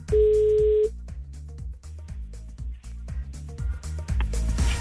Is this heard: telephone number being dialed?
yes